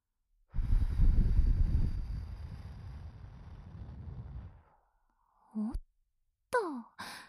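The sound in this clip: Someone blows into the listener's ear as if blowing out a candle, one long, strong breathy gust that slowly fades over several seconds. After a short silence come a couple of brief soft sounds.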